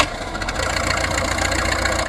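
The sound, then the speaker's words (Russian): Aircraft engines being started, heard as a loud, steady mechanical drone with a rough idling texture that holds at an even level throughout, with no clear break. “Летчики, на аэродром! Заводим моторы!”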